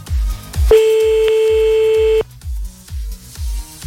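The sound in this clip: A telephone ringing tone sounds on an outgoing call that goes unanswered: one long, steady, mid-pitched tone over a thumping rhythmic music beat that continues before and after it.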